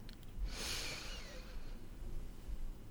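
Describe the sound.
A deep breath drawn in through the nose: one long, breathy inhale with a soft airy hiss that swells and then fades, with no talking.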